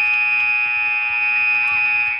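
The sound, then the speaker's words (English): A loud electronic buzzer ends the first quarter of a basketball game, holding one sustained high tone without a break over faint background noise. “Yep, and that buzzer is the end of the first quarter.”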